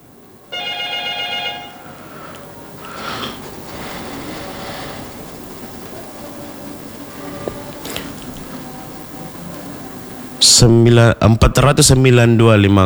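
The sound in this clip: A telephone rings with an incoming caller: one short, bright electronic ring burst near the start. A long stretch of quiet, murmuring background follows, then a sudden loud, busy passage at the end.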